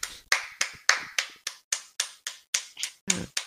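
Steady hand clapping, as one person keeps going after everyone else has started: a long, evenly spaced run of sharp single claps, each crisp and bright with a quick decay.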